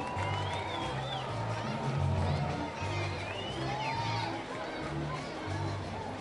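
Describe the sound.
Crowd noise at a minor league baseball game at LECOM Park in Bradenton: a steady murmur of chatter with scattered shouts, while a voice talks over it.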